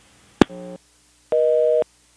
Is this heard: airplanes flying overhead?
no